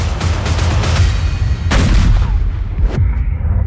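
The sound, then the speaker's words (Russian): Conical-bore S-40 artillery gun firing: a few sharp, booming reports over a rumbling low background, with the two heaviest blasts standing out loud and abrupt near the middle and toward the end. “Оружейка. Артиллерия. Коническое орудие Грабина С-40.”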